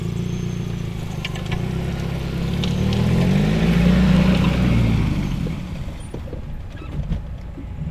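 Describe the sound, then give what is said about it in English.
A car drives along a road past vineyard rows, giving a steady low engine and road rumble that swells for a few seconds in the middle, then eases off. “We are driving past lots of your vines now.”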